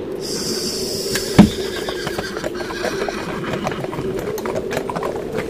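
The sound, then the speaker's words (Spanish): A horse-drawn night coach sets off slowly: a short horse neigh or snort sounds early on, over a steady, continuous clattering rumble of hooves and wheels. “El coche partió con inusual lentitud, pero pronto recobró un ritmo más normal.”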